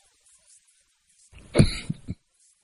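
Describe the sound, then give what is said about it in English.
A man coughs, a short, rough burst of two or three hacks packed into under a second, fairly loud and alone in an otherwise quiet moment. “And got a little bit of a coughing going on.”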